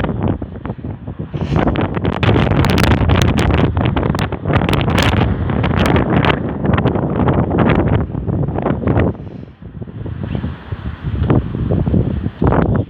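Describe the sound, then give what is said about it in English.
Wind buffets the microphone in a steady, loud roar, with gusts surging and easing throughout and a brief lull near the end before the blast returns. “The different wind conditions that have ensued over the last several minutes. Definitely a windy experience.”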